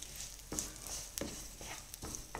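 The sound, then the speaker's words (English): Garlic, ginger, sesame seeds and red chili flakes stirred in moderately hot oil in a pan, giving faint scraping strokes a few times over a soft, steady sizzle. “Now to this, I'm going to add in 2 tablespoons of sesame seeds and about 1 tablespoon of red chili flakes and stir this well.”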